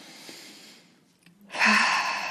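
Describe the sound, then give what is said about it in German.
A deep breath in taken as part of a slow breathing exercise: a soft breathy hiss fades into a short silence, then a loud, full intake of air swells and holds to the end. “atme vielleicht einfach mal ganz klassisch so dreimal richtig tief ein. Ja, ich mache das jetzt einfach mal. Dann nochmal.”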